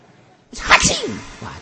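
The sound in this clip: A single sudden sneeze bursts out during a religious lecture, a sharp, breathy explosion that quickly tails off into a brief murmur.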